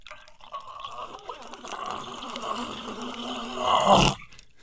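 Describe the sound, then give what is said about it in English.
An AI-generated effect of water pouring into a glass: a gurgling, bubbling pour that builds steadily, swells into a louder surge near the end, then cuts off abruptly. “It's like it's haunted. So it feels like it wants to be someone pouring water into a glass.”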